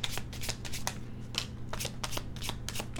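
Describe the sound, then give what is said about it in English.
Tarot cards being shuffled: rapid papery riffling bursts that run on in a continuous flurry with no voices. “And as soon as I ask that question, what card comes out?”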